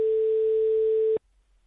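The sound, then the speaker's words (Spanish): Another phone call cutting into a telephone line: a single steady, mid-pitched tone about one second long that stops abruptly, leaving near silence. “parece que se ha colado una llamada en esa comunicación que mantenemos con Jessica Fernández”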